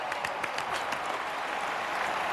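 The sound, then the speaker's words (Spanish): Crowd applause breaks out as a knight falls to the ground, a steady, dense wash of clapping with a few sharper bursts near the start and no talk over it. “Un caballero cae al suelo y Rhaenyra se encoge de aplausos.”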